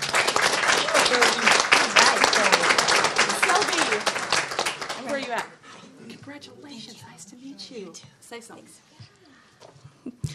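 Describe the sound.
An audience applauds to welcome a scholarship recipient: dense, loud clapping for about five seconds that then drops away as a voice starts talking.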